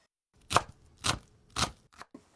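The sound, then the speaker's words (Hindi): A knife finely chopping onion into small 3 mm squares, heard as a few slow, evenly spaced sharp chops on a board with short pauses between strikes, no talking. “सबसे पहले प्याज को महीन काटना है, इसके लिए उसे 3 मिलीमीटर के छोटे छोटे चौकोर टुकड़ों में काट लीजिए।”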